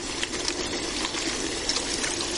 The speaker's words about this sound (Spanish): Abre el grifo y se las aclara.